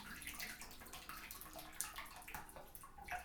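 Water drains away with quiet gurgling and trickling, broken by small irregular splashes and drips. The sound is faint and uneven and carries no voices.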